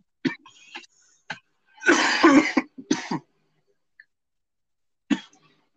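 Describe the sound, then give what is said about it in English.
A person coughs hard in a run of harsh, raspy bursts, with the longest and loudest fit in the middle, then a pause before one last cough. “you're coughing up a lung there”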